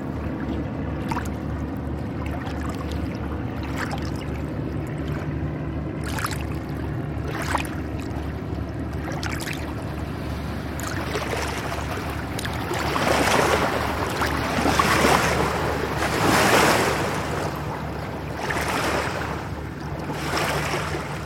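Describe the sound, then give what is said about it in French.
Broad washing rush of river water as a very flat barge carrying sand passes, over a steady low hum, the wash swelling louder through the second half. No voices. “Il y a un bateau là qui passe, une péniche, qui a l'air de transporter du sable,”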